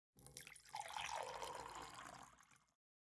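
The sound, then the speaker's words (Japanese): A magic potion is poured into a glass in one smooth, continuous pour of about two and a half seconds, a faint splashing trickle that swells and then tapers off, alone. “さて、じゃあ魔法の薬をグラスに注いで”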